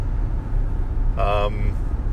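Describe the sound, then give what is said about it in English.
Steady low road rumble inside a moving car, continuous and even, with a brief voice-like tone partway through. “I am, you know, podcasting and driving, which is probably distracted driving and is worse than even being drunk driving”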